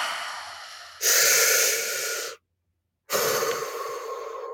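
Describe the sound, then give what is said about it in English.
A deep human breath, loud and breathy: a long rush of air that swells, cuts to silence for under a second, then resumes as another long breath. “I'm going to take a deep breath now.”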